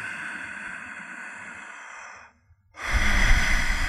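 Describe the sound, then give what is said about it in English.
Breathing demonstrated as a shallow 'deep' breath that stays below the collarbone: one long, steady airy breath, then a brief silence, then a second, louder and fuller breath. “Take a deep breath that doesn't even get above your collarbone.”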